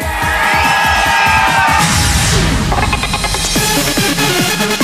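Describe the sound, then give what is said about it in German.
A live show crowd yells and whoops in a loud, continuous roar, mixed with pounding music and a steady beat. “Atrium, können wir euch mal schreien hören?”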